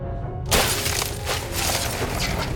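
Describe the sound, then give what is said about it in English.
A Mercedes saloon car's windscreen is smashed with a steel bar. After a brief quiet start, a sudden loud shattering crash gives way to sustained crunching and rattling glass noise. “She disappears and returns with a steel bar. She smashes the windscreen,”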